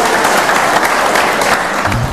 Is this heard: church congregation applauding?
yes